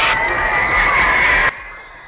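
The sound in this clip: An audience cheers and applauds to welcome the star performer of a stage show, a loud roar of crowd noise that drops off abruptly after about a second and a half.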